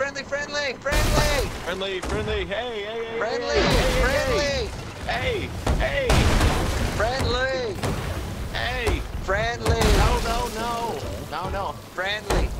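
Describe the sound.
Cannon fire between sailing ships in a naval video game battle near a galleon, heard as a few heavy booming blasts. The shots are partly buried under continuous excited talk from players.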